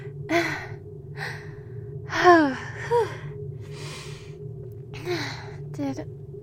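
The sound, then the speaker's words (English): Heavy panting as a person catches their breath after sex: a series of breathy exhales and voiced gasps roughly a second apart, some sliding downward into a moan-like tone. “let me catch my breath for a second.”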